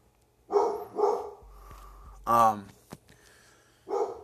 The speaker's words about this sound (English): that's my dog going crazy, so bear with me